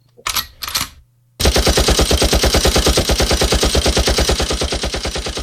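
A machine gun sound effect: after two brief noisy bursts, a loud, sustained volley of many rapid, evenly spaced shots rattles on steadily to the end.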